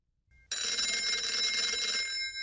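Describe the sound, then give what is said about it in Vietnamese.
A telephone bell rings, a bright, continuous metallic trill of about two seconds that starts abruptly and stops at the end. “Tiếng điện thoại reo.”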